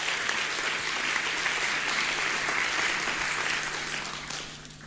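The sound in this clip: Audience applause welcoming a speaker to the lectern at the inaugural Paul Mees public debate, a dense, even patter of many hands that holds for several seconds and eases off slightly at the end.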